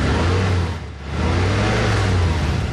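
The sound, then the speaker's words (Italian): The high-performance V6 diesel engine of an Infinity FX or EX car revs with a full, broad roar over a low steady drone. The roar dips briefly, then swells back up to full strength. “È il sound del nuovo motore V6 Infinity ad alte prestazioni. Non sembra, eppure è un diesel.”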